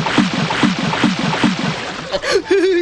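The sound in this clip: Rhythmic splashing of water from someone swimming fast, four evenly spaced strokes about every half second, followed by a voice at the end.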